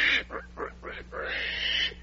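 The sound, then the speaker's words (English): Pig grunting: a few quick, quiet snorting grunts in a rhythmic run, followed by a longer rasping, breathy noise, with no other sound around it. “Well, there's no mistaking it now. You are turning into a pig.”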